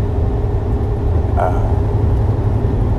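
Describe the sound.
A truck driving down the road gives a steady, low engine rumble with continuous road noise, holding an even loudness throughout.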